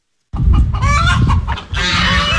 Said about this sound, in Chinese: 鸡鸣鹅叫声此起彼伏